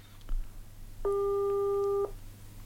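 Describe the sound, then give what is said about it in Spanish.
A telephone tone sounds on an outgoing call: a single steady electronic beep lasting about a second, clear and even, over a faint background hiss. “Ahí lo estamos llamando.”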